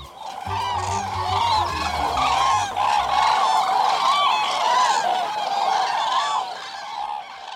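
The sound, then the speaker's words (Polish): Common cranes call from a large autumn gathering, with loud, overlapping trumpeting and bugling calls running continuously over a low droning tone in the first few seconds. “A teraz posłuchajmy wspaniałego klangoru żurawi jeszcze raz.”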